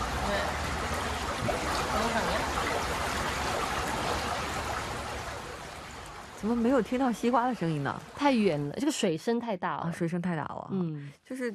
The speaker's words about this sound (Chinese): 太远了，这个水声太大了。